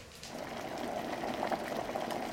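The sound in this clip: A kettle boils water with a steady rushing hiss and bubbling that steps up slightly in loudness just after the start and then holds even.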